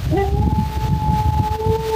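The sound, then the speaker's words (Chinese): A wolf howls in a research recording: one long, clear howl that rises sharply at the start, then holds a steady pitch with a fainter lower tone beneath it, over low rumbling background noise. “这就是狼的叫声哈。”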